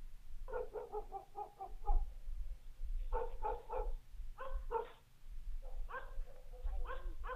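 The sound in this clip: Dog barking at night: several rapid bursts of yapping barks, some quick runs and some single barks, fairly faint over a low steady hum.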